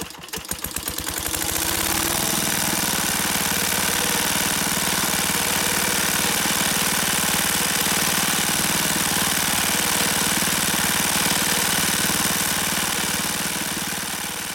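An engine with its fuel tank mounted above starts up. A burst of rapid firing pulses quickly settles into steady, loud, continuous running with heavy vibration and no talk.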